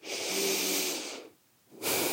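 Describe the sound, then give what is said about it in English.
A deep breath is drawn in as a long, airy, fairly faint hiss lasting over a second. A short pause follows, then another breathy rush begins, with no talk. “close your eyes, put your hand on your heart, take a deep breath in.”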